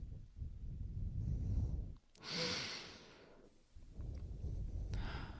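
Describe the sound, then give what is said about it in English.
A deep breath taken during a guided meditation: a single soft, airy sigh-like exhale stands out over a low, steady background rumble, with no voices. “Take another breath with me.”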